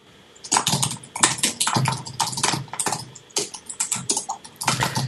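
Fingers type rapidly on a computer keyboard, producing many crisp, irregular keystroke clicks in quick bursts with brief pauses, heard alone without talk.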